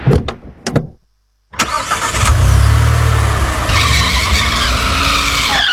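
Tires skidding as a car slides on a slippery, wet road in the dark: a few sharp clicks and a brief silence, then a loud, sustained screech mixed with rough engine noise.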